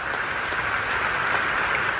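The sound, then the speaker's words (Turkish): Dense, steady applause fills the hall as scientists give a standing ovation at a large cancer congress in Chicago, cheering phase 3 results for a new pancreatic cancer drug. The clapping is continuous and even throughout, with no voices. “Chicago'da gösterilen sonuçlar salondaki bilim insanları tarafından dakikalarca ayakta alkışlandı.”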